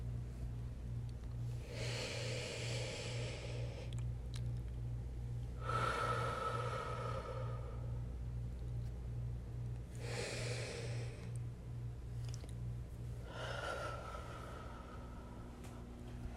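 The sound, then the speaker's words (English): Deep breaths drawn slowly in an unhurried rhythm, airy and faint, with a steady low hum underneath. “Take a few deep breaths with me.”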